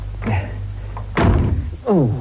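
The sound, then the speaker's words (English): A door is shut loudly in an office: a heavy slam stands out among a few softer bumps and thuds, over a steady low hum. “Oh, they don't know how to shut a door quietly, do they?”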